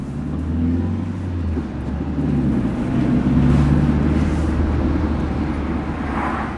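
Steady low engine drone of a car reversing, a continuous rumble that swells slightly through the middle and then holds level, with no voices.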